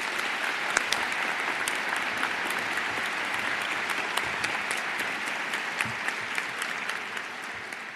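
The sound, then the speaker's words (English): Audience applause welcomes a moderator to the podium at a campus event center, a dense and even clapping that holds at a steady level for the whole stretch. “Please join me in welcoming him to the podium.”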